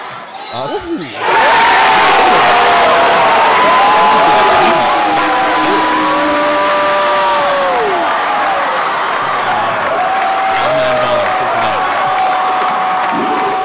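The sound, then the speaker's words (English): A crowd roars and cheers at a high school basketball game after a game-winning layup. Voices shout and whoop over a sustained, loud wall of noise that bursts in after a short, quieter opening. “I was like, is that just a first quarter layup? No. People going nuts.”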